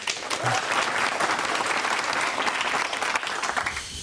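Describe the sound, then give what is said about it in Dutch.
Sustained applause from a studio audience at a sports talk show, dense and steady throughout, easing off slightly in the last moments. “Geef hem toch maar een applaus.”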